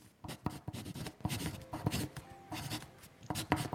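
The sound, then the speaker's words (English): Pen scratching on paper in a writing sound effect: many short, rasping strokes in an uneven rhythm, fairly faint and heard alone without talk. “I'm going to play some writing sound effects in there.”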